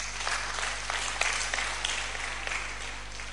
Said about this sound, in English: Go and sit down. Clap for them.